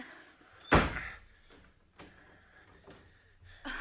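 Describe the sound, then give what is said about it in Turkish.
Door opening and slamming in a radio drama: a sharp, heavy slam stands out, followed by a few softer thuds and knocks at lower volume. “Şimdi kapıyı aç.”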